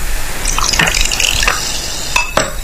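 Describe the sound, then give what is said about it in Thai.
Liquid drips and splashes as lime is squeezed and soda is poured into a drink, giving a few light drops and a brief fizzy trickle with soft clinks, fairly loud and with no voices. “บีบมะนาวหน่อยมานี่บีบมะนาวเติมโซดาเขย่า”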